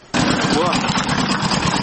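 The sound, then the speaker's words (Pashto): An old sixteen-horsepower generator runs, its loud, steady engine drone starting abruptly and holding a rough, even rumble, with a voice heard over it. “برښنا نسته خو یو زوړ شپارس هسپاور جنراتور چالانه دی”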